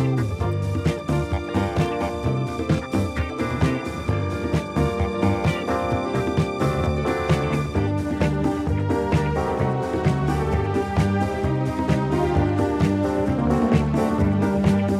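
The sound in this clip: Disco remix of a classical Hungarian dance: loud, dense music with a steady, driving beat under layered melodic parts, played continuously and without pause from start to finish.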